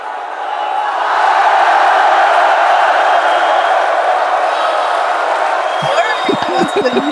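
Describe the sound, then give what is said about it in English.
A crowd cheering and whooping sound effect swells in quickly and holds as a dense, loud roar. A voice starts speaking near the end. “Bravo. There's so many fans. Oh my God, I'm so honored. Thank you, my fans. Oh my God, I didn't know we had such an audience.”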